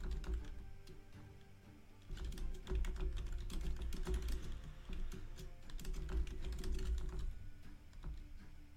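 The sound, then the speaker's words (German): Typing on a computer keyboard to write a message in an online game: many quick, irregular key clicks, fairly faint, continue over a steady low hum, with no talk. “Gut, dauert einen Moment zu tippen.”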